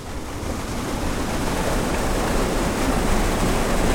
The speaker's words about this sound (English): This is the sound of the West Virginia American Water Treatment Plant in Huntington, one of 14 drinking water plants that found blooms in their intakes during last summer's outbreak.